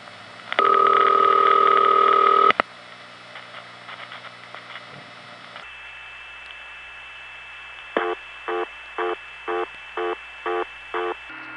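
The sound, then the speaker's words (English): Telephone trunk line noise from an N3-family carrier lacking high frequencies: low hiss with a thin steady whine, preceded by a loud sustained tone and followed later by a regular series of short pulsed tones. “Here are a few real-life examples of N3 family carrier noise that don't have all the high frequencies.”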